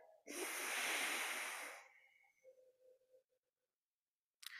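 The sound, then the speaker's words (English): A loud, airy nasal breath is drawn through one nostril during an alternate-nostril breathing exercise, followed by quiet before the next breath begins at the very end. “Hold that left nostril and breathe in through the right nostril. Switch. Breathe out to the left nostril.”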